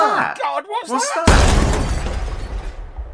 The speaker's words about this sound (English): Good God. Strophon nearly had a heart attack. Broken that glass dome. What's this that's landed on the marble floor of the atrium?